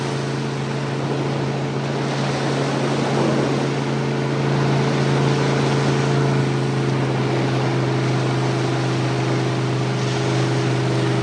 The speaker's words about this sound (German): Ein kleines weißes Fischerboot fährt gerade zum Fang hinaus.